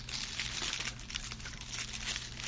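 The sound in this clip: Crinkling and tearing of wrapping paper and tape as a taped-up gift package is opened: a steady, dense rustle of crumpling paper with scattered crackles, moderately loud and continuous throughout.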